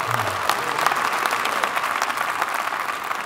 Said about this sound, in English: thank you for the applause